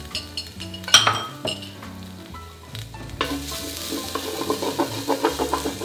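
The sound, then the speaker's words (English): Fresh ginger sautéing in coconut oil in a hot pan where it starts to stick, with sizzling frying under repeated clinks and scrapes of a utensil against the pan, growing busier toward the end. “And I'm gonna saute it a little bit. I think I need a little bit more of that coconut oil to give it a nice saute.”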